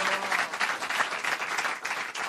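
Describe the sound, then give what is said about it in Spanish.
A live audience applauds a guest at a stand-up comedy show with dense, steady clapping that holds at a fairly even level throughout, with no voices. “Fuerte el aplauso para mi dentista, Daniel.”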